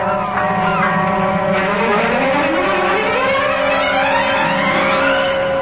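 Boat engine running on the water, a steady, continuous drone with layered humming tones that slowly shift in pitch throughout, with no voices heard.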